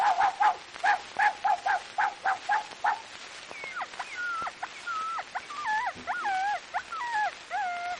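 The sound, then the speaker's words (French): A small dog with a crushed, injured head yelps in many short, sharp bursts, then moves into drawn-out, wavering whimpers and whines that rise and fall in pitch. “Mais si l'imbécile, vous ne pourriez pas faire attention à mon chien, il a la tête toute écrasée. Petit loulou à sa mère.”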